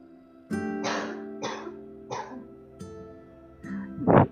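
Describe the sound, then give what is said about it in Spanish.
Coughing from someone who has choked while talking: a series of several hoarse, throaty coughs with short gaps between them, the last burst the loudest. “Disculpen, me, me, he ahogado. Yo creo porque estoy hablando ya más más corrido.”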